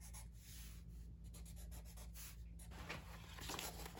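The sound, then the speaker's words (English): Faint, continuous scratching and rubbing of a pencil drawing a quick sketch, with short strokes running one after another and no voices. “So I'm gonna draw.”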